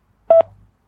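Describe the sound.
A telephone signal tone on an automated phone line: a single short, clean, mid-pitched beep lasting about a tenth of a second, followed by a faint low hum.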